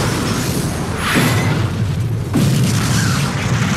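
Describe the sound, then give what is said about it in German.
Heavy explosion sound effect for nitroglycerin blasts that brought down a secret police building complex in 1947 Tehran: a continuous loud, deep rumbling roar with a couple of heavier swelling blasts partway through, no voices. “Ältere Bewohner Teherans erinnern sich noch heute an die gewaltigen Explosionen im Stadtinneren”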